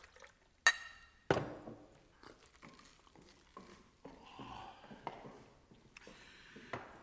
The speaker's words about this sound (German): Ein Glas mit Wasser. Gleich.